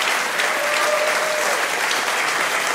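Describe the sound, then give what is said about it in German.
An audience gives steady, full applause welcoming comedian Anka Zink to the stage, a thick, even wash of clapping heard alone without a break. “Bitte begrüßt mit einem fulminanten Applaus die wunderbare Anka Zink.”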